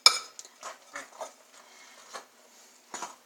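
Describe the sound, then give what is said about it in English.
A fork stirs a mixture, making a few faint, irregular scrapes and soft clinks against the container, with quiet pauses between strokes. “I just stir it with a fork. Mix everything together.”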